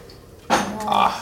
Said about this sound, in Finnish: Mulla on tässä litran kannussa. Tätä 1,5 litraa nyt tätä valmista lientä. Ja kaadan tuonne.